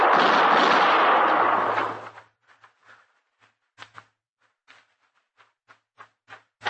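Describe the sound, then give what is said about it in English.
A gunshot blast in an alley: one loud, sustained burst of noise that cuts off sharply, followed by quiet, scattered clicks and taps. “I seen his gun flash. Don't shoot, Chester.”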